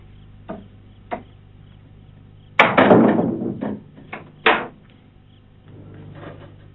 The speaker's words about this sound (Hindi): दरवाजा खराब है। जी हाँ, खराब है। मैं खुद ही बंद करता हूँ इसे।